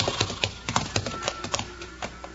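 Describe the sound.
Hoofbeats of horses being pulled up to a halt on a trail, a fairly loud, irregular run of many clip-clop strikes with no clear steady rhythm.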